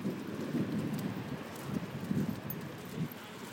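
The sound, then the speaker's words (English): Wind blowing outdoors on a dog walk buffets the microphone with a continuous low rumble. Gusts swell and ease unevenly throughout, with no talk. “Sorry for the wind. Not my wind, the wind.”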